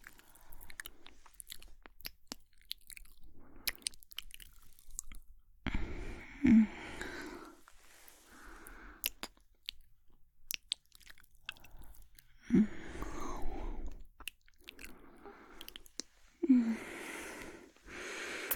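Soft wet mouth sounds of nibbling on a neck: quiet, intermittent kisses, small bites and lip smacks, with a few sharper clicks and breathy intakes spread unevenly across the stretch. No talking is heard.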